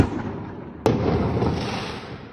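Fireworks explode late at night in city streets, a single sharp bang that rolls into a decaying rumble over steady low background noise.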